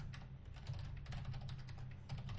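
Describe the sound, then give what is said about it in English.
Typing on a computer keyboard: a fast, continuous run of many soft keystrokes with an even rhythm, faint and alone. “Alright, so I just typed something right now, and I wrote down Clippers woes with injuries on the screen.”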